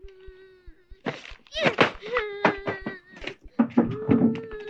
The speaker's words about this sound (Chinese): 乖，不宰，不要哭了。